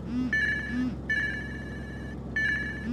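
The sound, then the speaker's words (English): A phone rings with an incoming call on a messaging app, an electronic ringtone in three bright, warbling bursts separated by short gaps, loud and steady with no voices over it. “Wait. Who's calling me on Signal?”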